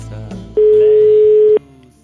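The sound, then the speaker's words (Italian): Ringback tone of an outgoing telephone call: one steady, loud, one-second tone that stops abruptly, with low background noise before and after. “un finto Papa Bergoglio chiama Pier Giorgio Di Freddi dopo le sue uscite sull'Olocausto.”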